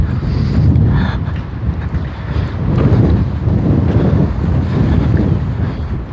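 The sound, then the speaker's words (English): Wind buffets the microphone outdoors along a sidewalk, a continuous low roar that swells in gusts and eases again. No voices are heard. “Wind is right in my face.”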